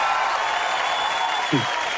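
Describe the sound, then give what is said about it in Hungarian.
Applause sound effect played on a Hungarian radio show, an even, continuous patter of clapping at a steady level, with a brief voice breaking in near the end. “Ó, na várjál, dobunk egy... Tapsot?”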